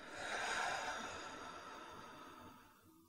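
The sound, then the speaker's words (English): A person breathes slowly in and out, one soft, airy breath that swells early and then fades gradually, faint and heard alone. “Let's breathe in and out.”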